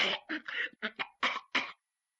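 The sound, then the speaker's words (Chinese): A voice imitates a fit of coughing, a rapid run of several short, harsh coughs in quick succession, then silence. “把他急得嗓子眼直刺呀，在后边直咳嗽”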